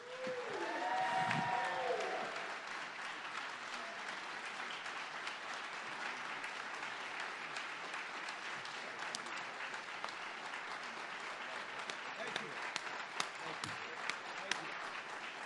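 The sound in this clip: Applause greets the Oakland Raiders head coach: a dense, loud, steady crowd clapping that holds for the whole stretch without a break.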